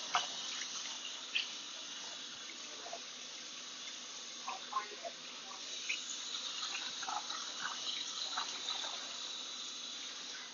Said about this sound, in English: I'm going to go ahead and just wash my hands real quick. And also wash the counter space.